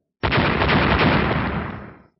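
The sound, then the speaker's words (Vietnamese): A loud blast-like roar from a clash of magical wind attacks in an auction hall bursts in abruptly, holds as a dense rumbling wall of noise for nearly two seconds, then trails away. “Liên tục ba tiếng nổ chấn động nguyên phòng đấu giá”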